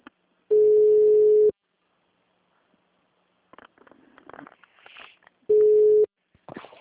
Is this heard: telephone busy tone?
yes

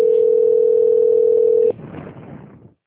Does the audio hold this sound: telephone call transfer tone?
yes

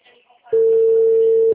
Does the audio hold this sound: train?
no

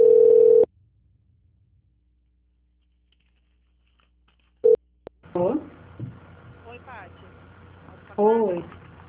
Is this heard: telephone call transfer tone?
yes

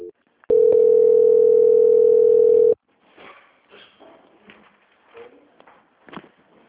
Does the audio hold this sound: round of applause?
no

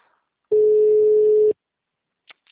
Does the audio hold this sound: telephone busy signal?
yes

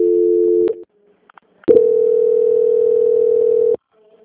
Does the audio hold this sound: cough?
no

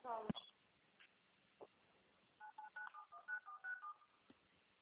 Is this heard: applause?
no

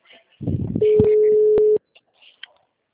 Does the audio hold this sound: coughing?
no

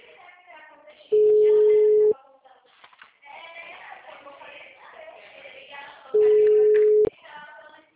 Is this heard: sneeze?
no

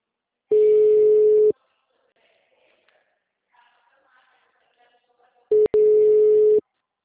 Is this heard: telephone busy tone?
yes

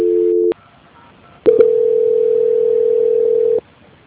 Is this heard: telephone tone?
yes

